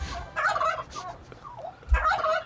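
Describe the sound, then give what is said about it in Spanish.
Chicken-like fowl clucking and squawking, played as a sound effect during a video game awards show, comes in a few loud, nasal bursts with a busier stretch at the start and another near the end. “¿Esto de los pollos? Es cachondo, ¿eh? Ponlo otra vez.”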